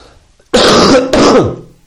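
A loud, harsh cough in two rough bursts in quick succession, close to throat clearing, with no talk.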